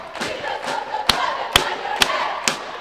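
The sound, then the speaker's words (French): A crowd cheering after a women's team victory, a continuous roar of many voices marked by a regular series of sharp, loud thuds. “Vous devez certainement entendre derrière nous l'expression de joie, la communion entre le public et ses joueuses.”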